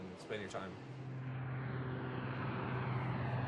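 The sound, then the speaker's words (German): Transport aircraft at an air base in Greenland, a broad, steady engine roar with a low droning hum underneath that builds slightly and holds loud to the end. “Mehrmals in der Woche landen Transportflugzeuge.”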